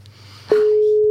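A telephone call tone sounds while calling someone: a loud, steady single-pitch tone starts partway through and holds unbroken to the end, following quieter background sound.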